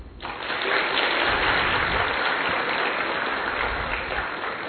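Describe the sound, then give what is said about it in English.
An audience claps on cue at a gathering, a dense, steady wash of applause that swells within the first moment and holds at an even level to the end, with no talk over it. “All those who like to eat sweets will clap.”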